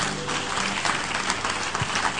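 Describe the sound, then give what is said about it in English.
Audience applause at a talk, a steady, continuous patter of many hands clapping together, with no single clap standing out from the dense texture. “So, clap, oh, clap, clap, clap.”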